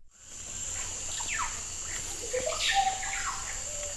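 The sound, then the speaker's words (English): Amazon rainforest ambience: a steady, high insect drone runs throughout while scattered bird chirps and whistles rise and fall over it. “I've seen this place. I've heard it, too. The vast and mysterious forest, the old earth. The Amazon, life untamed. Birds, enormous insects, plants grown past anything I've seen before.”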